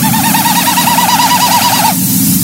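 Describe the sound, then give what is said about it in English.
Common snipe display call in Newfoundland: a hollow, tremulous, wavering tone that pulses rapidly and evenly for about two seconds before stopping abruptly, heard alone over a low steady background hum. “Well, common sniper, a very characteristic bird of Newfoundland.”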